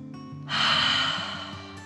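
A long, deep breath taken as a calming 'dragon breath' exercise: a soft rush of air swells and slowly eases away over quiet background music.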